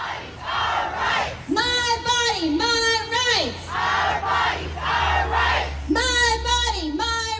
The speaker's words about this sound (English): South Carolina abortion rights activists rallied Wednesday after state House lawmakers passed a near-total abortion ban